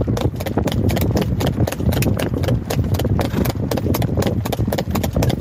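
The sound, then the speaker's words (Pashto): Hooves of a horse pulling a tonga cart clip-clop along a road in a rapid, steady rhythm, with many loud hoofbeats running through the whole stretch. “ورېدونکو دغه اس قیمت چې کم دی هغه پاکستانی روپو کې 14 لک دی دغه په سرک روان دي تاسو به اوري”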